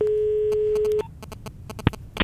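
A telephone line tone sounds as a call is placed: a steady, loud, mid-pitched tone holds for about a second, then gives way to a few quieter clicks and brief beeps.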